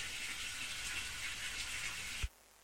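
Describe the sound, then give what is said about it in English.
Water poured into an outdoor plant pot with a little built-in fountain makes a faint, steady hissing stream that stops abruptly with a soft low thud. “she's not having a wee in a bucket. She's actually putting some water into one of her plant pots outside that's got a little built-in fountain.”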